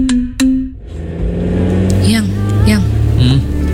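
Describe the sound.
A car being driven, with a steady low engine rumble running through the whole stretch and people talking briefly over it.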